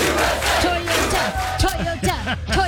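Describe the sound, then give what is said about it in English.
A loud crowd of soccer fans chants USA in unison, a dense roar of many voices with rhythmic, repeated rising and falling calls. “the Team USA fans are wowing the world with their soccer chants.”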